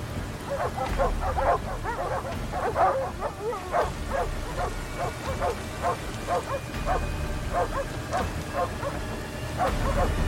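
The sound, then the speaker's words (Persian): Dogs bark at a bridge entrance: many quick, yappy barks, some overlapping, form a busy, fairly steady rhythm of mid-pitched yelps for the whole stretch, with faint whimpers between them. “سگا ورودی پلن.”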